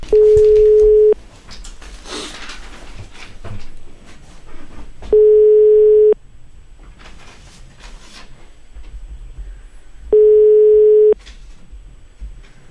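Ringback tone of an outgoing phone call placed from a withheld number. Three steady, low, one-second tones repeat about every five seconds over faint background noise. No voices.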